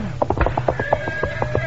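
Fast hoofbeats of a horse being urged into a gallop to cross a bridge over a swamp stream: a steady, even run of many quick clip-clop thuds, with a faint sustained tone beneath them.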